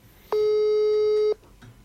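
A single steady telephone ringback tone on a live call sounds for about one second. It is an even, buzzing purr that stops abruptly, with faint background noise before and after it.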